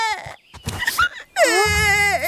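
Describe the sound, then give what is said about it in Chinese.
A child cries over a favourite toy robot that has just broken, with a few short choked sobs followed by a loud, sustained high-pitched wail that wavers in pitch. “摔坏了， 这是我最喜欢的机器人。 孩子别哭，来，狐狸奶奶呀”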